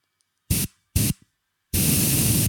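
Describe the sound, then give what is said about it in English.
Girls Only Dawn Till Dusk dry shampoo sprayed from an aerosol can: two short hissing bursts, then one long, loud continuous spray. “let's hear one more time on the girls only healthcare dry shampoo Dawn Till Dusk revives hair between washes, which is actually mine. I use it for camping and it's very good. Okay, here we go.”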